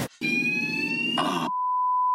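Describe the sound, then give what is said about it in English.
A fire alarm sounds aboard a ship: a loud, continuous electronic alarm tone over a harsh buzzing rush, which then settles into one steady, clear tone. “What's that? It's a fire alarm.”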